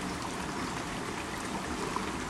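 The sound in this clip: A creek flows in a continuous soft rush of water, a quiet, even babble with no pauses and no other sounds.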